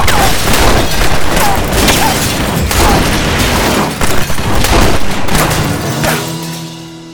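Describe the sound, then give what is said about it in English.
Gunfire from Colt revolvers in a gunfight, a dense, loud barrage of overlapping shots and booming blasts that runs almost without pause before thinning out and fading near the end. “Suddenly, Frank shot at Doc, but the bullet hit his holster and ricocheted into his hip. Damn it. It was a minor wound. Doc whirled and fired his Colt, hitting Frank in the forehead.”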